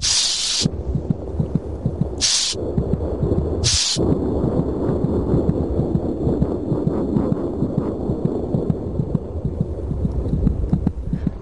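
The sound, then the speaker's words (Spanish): Fetal heartbeat: a fast, steady, rhythmic throbbing with many beats over a constant hum, broken early on by a few short bursts of hiss. “El cerebro tampoco controla el corazón, pero este late automática y espasmódicamente. Cada vez los latidos son más seguidos”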